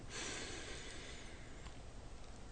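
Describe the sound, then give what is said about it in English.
A deep, slow breath drawn in through the nose during a guided relaxation exercise, heard as a faint, steady, airy hiss that lasts throughout with no talking. “let's take a deep breath in through the nose and”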